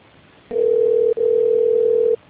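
Telephone dial tone on an internal office call: a single steady, low, humming tone that starts after a short pause, drops out once very briefly, resumes, then cuts off near the end.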